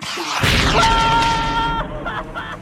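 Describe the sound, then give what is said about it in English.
A rocket liftoff blast bursts in suddenly as a loud roaring whoosh. A steady whistling tone runs through it for about a second, and the roar then tapers off. “Liftoff in T-minus 10. Oh, I see. You're starting a little countdown. That's cute. What are you gonna do? Shoot me into space? That's exactly right.”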